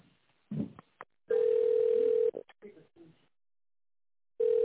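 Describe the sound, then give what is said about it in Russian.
Telephone line tone after a dropped call: a steady mid-pitched beep lasts about a second, followed by a pause with faint voice and handling noise, then the same tone starts again at the end. “Не соединилась, да? Сбросили меня.”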